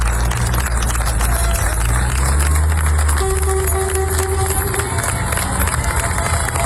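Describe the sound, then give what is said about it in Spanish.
Townspeople of Niebla cheer and applaud as military emergency firefighting crews depart after stabilising a record forest fire. A loud, dense, unbroken wash of crowd noise fills the whole clip. “Este es el sonido de la despedida del pueblo de Niebla, los efectivos de la UME que han estado trabajando día y noche”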